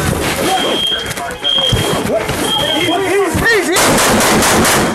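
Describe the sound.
Gunshots in police footage of a school shooting and a firefight with officers. Many sharp, loud bangs crack out, an intermittent high alarm beep sounds, and voices shout throughout.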